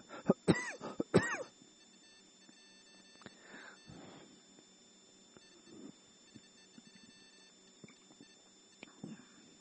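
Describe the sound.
A man clears his throat and coughs mid-sermon: a few harsh, rasping bursts close together at the start, followed by scattered quieter throat noises, with no talk.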